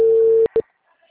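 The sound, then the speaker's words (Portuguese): A telephone line's disconnect tone after a dropped call: one loud, steady, mid-pitched tone about half a second long, then a brief short second beep before silence. “Uè, caio ligação. A ligação caiu.”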